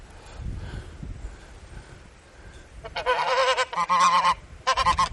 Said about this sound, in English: bit of video of the geese